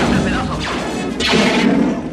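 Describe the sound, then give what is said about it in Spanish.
Gunshots fired at guards and control systems: loud, dense crashing bursts with sweeping tones that fall in pitch, running without a break from start to end. “Disparan contra las instalaciones del control, creando nubes de humo y chispas.”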